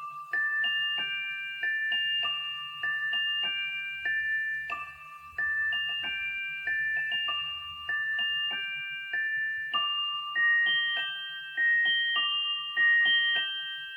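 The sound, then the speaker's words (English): A chiming watch melody from film music plays as a delicate, music-box-like tune of bright, bell-like notes in repeating phrases. It is soft and clear, with a faint low tone beneath. “Or perhaps A Few Dollars More. Which also has Watch Chime.”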